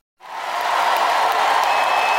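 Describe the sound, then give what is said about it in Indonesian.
Applause from an audience at an evening church service, honouring a speaker. It begins abruptly after a moment of silence and then holds as a steady, even wash of clapping until the end. “Marilah berikan dia pujian yang hebat malam ini.”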